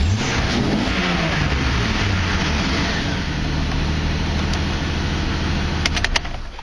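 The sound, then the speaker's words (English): An engine revved once and left running in a yard: a loud, continuous mechanical drone that shifts in pitch near the start, then settles into a steady idle, with a few sharp clicks near the end. “I gotta turn this off. Can't think with it running. Might as well give her one rev.”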